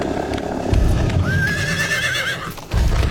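Horses ridden along a river: heavy hoof thuds with a long, wavering whinny from one horse in the middle, loud and alone.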